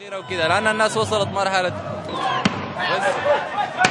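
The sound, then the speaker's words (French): Live-round gunshots at a street protest: two sharp, loud cracks cut through a background of crowd voices and shouting. “Quelques tirs à balles réelles résonnent. À chaque détonation, les manifestants se dispersent avant de revenir à la charge.”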